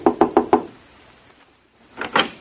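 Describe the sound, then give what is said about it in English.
Knocking on a hotel room door: four firm knocks in a quick, even rhythm, loud and clear, then silence. “I'll knock on the door.”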